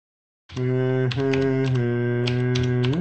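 Typing on a computer keyboard, a few scattered key clicks tapping over a loud, steady humming tone that starts abruptly and holds throughout.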